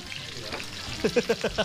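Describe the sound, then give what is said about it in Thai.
Squid sizzles and fries in a pan as it cooks, a continuous crackling hiss. A voice briefly sounds over it toward the end. “หมึกเริ่มสุกแล้วใส่อันนี้จะใส่อะไรครับ น้ำปลาครับ ใส่ลงไปในนั้นเลยเหรอ ใช่ครับ แล้วมันจะกระเด็นไหมล่ะ”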